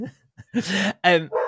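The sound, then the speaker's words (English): A dog barks wildly at the doorbell, giving a few loud, harsh barks in close succession after a faint, brief start. “I love the fact your dog does the same as my dog. When the doorbell goes, it goes mad.”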